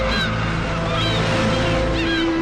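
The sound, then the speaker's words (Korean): Seagull cries over a wide river, heard from a footbridge railing. A few short, high calls come at intervals over a steady low drone. “대지오 나라에는 갈매기들의 울음소리가 음악처럼 울려 퍼진다.”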